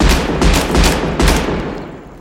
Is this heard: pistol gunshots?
yes

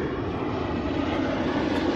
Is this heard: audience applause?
no

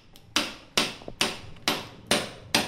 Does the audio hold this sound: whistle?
no

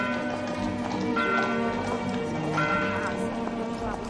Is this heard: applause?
no

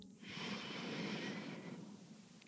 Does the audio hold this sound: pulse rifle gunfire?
no

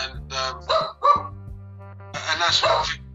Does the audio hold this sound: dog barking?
yes

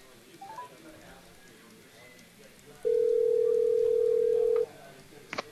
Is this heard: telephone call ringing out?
yes

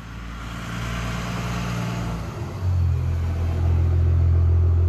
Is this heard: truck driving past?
yes

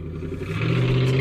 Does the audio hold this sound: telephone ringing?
no

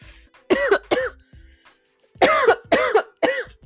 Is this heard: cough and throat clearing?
yes

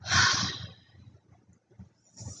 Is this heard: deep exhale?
yes

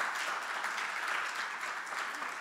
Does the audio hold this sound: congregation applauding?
yes

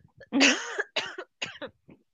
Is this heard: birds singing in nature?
no

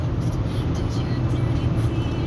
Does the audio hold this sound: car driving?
yes

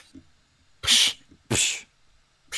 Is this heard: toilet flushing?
no

